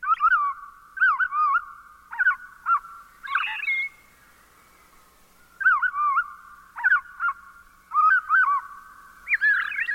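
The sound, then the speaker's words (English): A robin's evening song slowed to half speed: many drawn-out, warbling whistled phrases with slurred up-and-down notes, separated by short pauses and heard alone. “Let's listen more closely to the fine detail of a robin's evening song by slowing down the same notes to half normal speed.”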